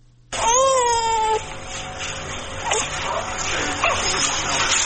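An infant cries out in a short wailing burst that falls in pitch, then gives way to a steady noisy background.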